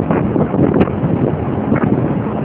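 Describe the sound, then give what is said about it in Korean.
Wind blowing outdoors on a highway, a loud, constant rushing and buffeting roar that fills the whole clip, with a couple of brief stronger gusts. “바람 소리 잘 들려요?”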